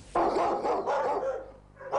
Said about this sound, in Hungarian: A csatakos négylábú ma már vidáman csahol, és várja, hogy új gazdája legyen.